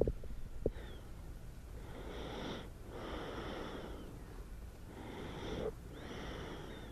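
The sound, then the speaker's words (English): Soft breathing of a sleeping baby, faint and slow, with a few drawn-out breaths that carry a slight wheezy, snuffly edge, separated by quiet pauses and heard alone. “I just thought I'd see if I can get the sound of baby sleeping.”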